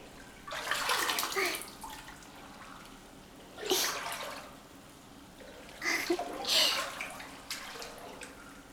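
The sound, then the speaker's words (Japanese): Hot water poured over a person sitting in a bath: three separate splashing pours with quiet gaps between them, the middle one short and the first and last longer and fuller. “足りないならこうしてお湯をかけてあげるから。”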